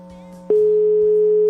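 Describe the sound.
Ringback tone on an outgoing telephone call: one steady mid-pitched tone lasting about a second, rising sharply out of a low background hum and cutting off cleanly.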